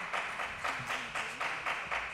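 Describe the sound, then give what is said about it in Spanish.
Rhythmic clapping from an audience at a tango-themed talk: a steady, even series of many claps at a quick tempo, moderately faint, with a soft low tone humming beneath. “Gracias por los aplausos, la gente aquí presente.”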